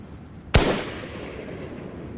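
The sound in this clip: A single sharp pistol shot fired in a duel: one loud, abrupt crack whose tail fades slowly into a steady background hiss.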